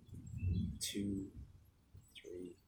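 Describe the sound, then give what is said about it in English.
Faint birds singing after a storm: a couple of short high chirps mixed with low, soft cooing notes, quiet and unhurried. “can you hear the birds singing in the back? They're coming out after the storm.”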